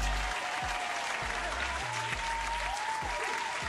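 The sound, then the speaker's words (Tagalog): Steady audience applause, dense and even from start to finish, fairly soft, with no talk over it. “Mabuhay kayo at deserve nyo ang isang masigabong palakpakan.”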